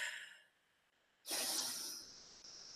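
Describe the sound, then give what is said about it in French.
A deep breath taken in through the belly and let out: a single loud, airy rush of breath that lasts under a second and then trails off into softer breathing, with fainter breath noise before it. “Alors on inspire profondément avec le ventre et on relâche.”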